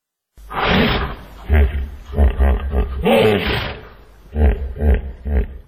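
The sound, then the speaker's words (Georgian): A 16-year-old hippopotamus at a zoo, kept for now in the elephants' open enclosure after a flood, gives loud, deep roaring grunts and bellows. They come in several rough bursts with brief pauses between them. “16 წლის ჰიპოპოტამი, რომელიც წყალდიდობის შემდეგ დროებით სპილოების ღია ვოლიერს აფარებს თავს.”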